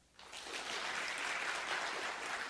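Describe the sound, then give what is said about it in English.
Audience clapping fades in after a brief quiet moment and holds as a dense, even patter of many hands, fairly faint throughout. “Clap if you like broccoli on your pizza. Clap if you like pizza.”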